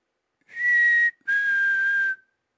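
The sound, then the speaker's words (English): A whistle is blown to get attention: two high, steady blasts with no other sound. The first is shorter and the second is longer, dipping slightly in pitch as it ends. “That's the whistle I have to use to try to get Democrats' attention.”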